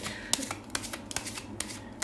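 Shuffling a deck of cards: a run of crisp, papery riffling bursts, several sharp flicks spread irregularly across about two seconds, moderately loud with a soft rustle between them.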